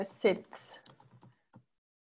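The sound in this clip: Typing on a computer keyboard while writing a text: a handful of soft keystrokes at an uneven pace, following a louder burst at the start, then trailing off into quiet.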